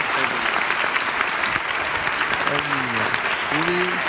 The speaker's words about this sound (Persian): تشویق بکنیم پدر مادرش.